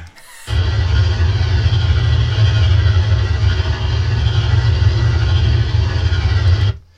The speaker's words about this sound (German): Und ich habe da natürlich mal einen Sound von einem Podracer vorbereitet